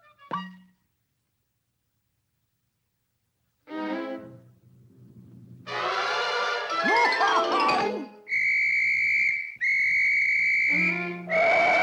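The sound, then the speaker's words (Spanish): Police whistle blasts in a dubbed animated cartoon: two sustained, shrill, steady whistle tones near the end, preceded by other tonal cartoon sounds. “¿Crees que te diré que es un silbato de policía? ¿Como este gatito?”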